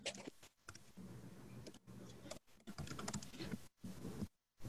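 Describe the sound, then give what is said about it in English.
Typing on a computer keyboard into a chat: quiet, rapid bursts of clattering keystrokes broken by brief pauses. “I'll paste that into the chat. Why is it not letting me paste? Copy, rather. I'll just write it.”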